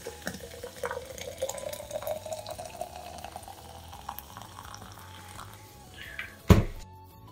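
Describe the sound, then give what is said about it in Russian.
Hot water, around 80–86 degrees, is poured over fireweed (ivan-chai) tea leaves in a steady trickling fill whose tone rises slowly as the vessel fills. It ends with a sharp knock. “Вода должна быть где-то в районе 80-86 градусов. Я как раз ее заранее подготовил. Заливаю.”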